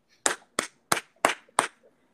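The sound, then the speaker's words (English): Five sharp gunshot sound effects ring out in a quick, evenly spaced run, each a loud crack with a short fading tail, with no talking. “Why did you do that in that point? Why did you do what? The gunshots.”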